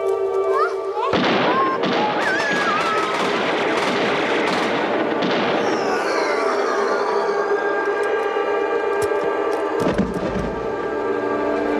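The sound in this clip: Gunshots in a TV drama scene: a few sharp, loud bangs cut through a dense, sustained bed of dramatic sound, with voices shouting over it.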